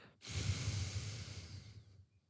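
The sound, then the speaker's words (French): A single steady nasal exhale comes through the left nostril while the right is held closed, in alternate nostril breathing. The soft, breathy hiss lasts about two seconds and then fades out, with no talk. “vous obturez la narine droite et vous allez expirer, souffler avec la narine gauche.”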